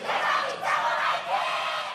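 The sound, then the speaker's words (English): Fans roar and cheer at a Korean video game competition, where the crowd watches the play on giant overhead screens; the dense crowd noise stays loud throughout and swells in a few waves. “Announcers call the plays as the crowd watches the action on 7 giant overhead plasma screens. The competition is broadcast on 2 Korean TV networks, and the fans cheer their favorite players like they were football stars.”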